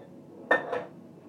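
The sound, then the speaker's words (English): A cooking pan, used for frying meat, is set back onto the hob with two quick metallic clanks close together, a sharp knock followed by a softer one, then quiet. “Let's get this back on the hob.”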